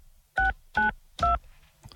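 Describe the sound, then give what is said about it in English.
Phone keypad buttons beep as a number is dialed: three clear, evenly spaced tones, then a shorter, fainter fourth tone at the very end, with no voices. “So let's just hit the phone here. If I can see the buttons.”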